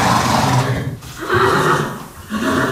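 A horse neighs in a stable full of champion horses, giving a few loud, harmonic whinnies that rise and fall in strength and run almost without a break through the short clip.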